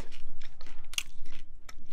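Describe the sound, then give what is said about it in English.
Someone chews raw massaged kale with steady, rhythmic crunching bites, moist and leafy, the jaw working in an even beat with a few sharper crunches. “Okay, now this one. This one is massaged. Massaged kale. Massaged kale.”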